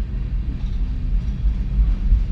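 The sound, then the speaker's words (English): A big train passes nearby with a steady, low, continuous rumble that swells slightly toward the end, with no voices. “this is a big train. I'm not going to let it bother me.”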